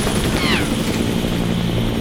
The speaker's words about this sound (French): Oh, regardez, c'est l'hélicoptère de la Star.